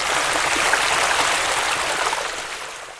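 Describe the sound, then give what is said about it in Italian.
Water of a stream running over stones: a steady, hissing rush that holds even and then eases slightly toward the end, with no voices. “Se ascolti bene, puoi sentire il rumore dell'acqua di un ruscello che corre tra le pietre.”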